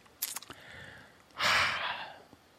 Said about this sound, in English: Cleansing deep breath.